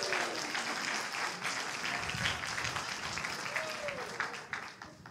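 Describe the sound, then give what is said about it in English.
A church audience applauds a volunteer called up during a sermon, with steady, sustained clapping throughout and a voice speaking over it. “Give it up for Juliana.”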